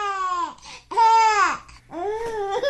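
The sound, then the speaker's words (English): A baby laughs in three bright, high-pitched vocal bursts, each bubbling up and then trailing off, with short breaths in between. “This is the sound of a baby laughing.”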